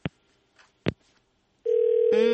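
A telephone sounds for an incoming caller: a few faint clicks, then a steady electronic tone starts abruptly and gives way to a brighter, buzzier tone. No voices are heard.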